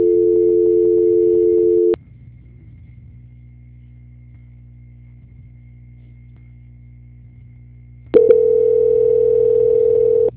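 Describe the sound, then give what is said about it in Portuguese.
A telephone tone plays while a call is being transferred: a loud, steady tone for about two seconds, a low hum for about six seconds, then the same steady tone returns until the end. “Só um instantinho que eu estou transferindo a ligação.”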